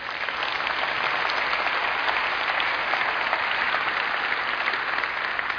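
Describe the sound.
Steady, loud applause from a church audience for young musicians after handbell, ensemble and choir performances: dense, even clapping that holds without a break and with no voices heard over it.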